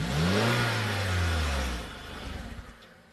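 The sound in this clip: A car engine revving loudly on an unfinished car that is running rich: a strong roar whose pitch drops, then holds, before easing into a rougher, sputtering rumble.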